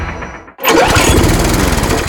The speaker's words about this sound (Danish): Måske det er en ny græsslåmaskine, du har brug for.